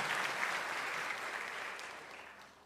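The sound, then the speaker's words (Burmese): Congregation applauding during a Sunday church service, a steady wash of many hands clapping that stays fairly even and thins slightly toward the end. “ဟာလေလုယာလက်ခုပ်တီးလက်ယေရှုတော်ကိုချီးမွမ်းရအောင်”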